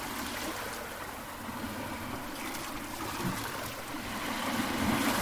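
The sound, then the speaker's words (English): A boat is paddled through water, giving continuous soft splashing and trickling over a low rumble that grows a little louder toward the end. “Paddling.”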